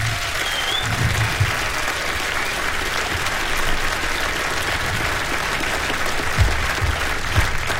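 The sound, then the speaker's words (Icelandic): An audience applauds a band with dense, sustained clapping. The applause keeps an even level for the whole stretch, with a few louder bursts along the way. “gefum þeim gott klapp allir hérna”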